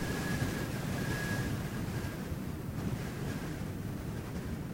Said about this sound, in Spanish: ¿Oís cómo gime el viento? Parece un lamento. Es el desierto que sueña.